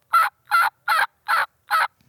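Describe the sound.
Turkey yelps made on a turkey call: five loud, raspy yelps in a quick, even series with only short breaks between them.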